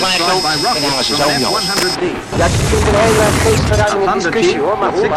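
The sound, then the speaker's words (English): Napalm bombs exploding on a storage area: a heavy, low roaring blast that swells and holds for over a second beneath an ongoing voice. “A storage area is reduced by napalm bombs.”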